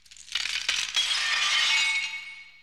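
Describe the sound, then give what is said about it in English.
A ball smashes through a glass picture window: a sharp crash and crack, then bright tinkling shards that ring on and slowly fade away. “Your kid launched a ball through your picture window?”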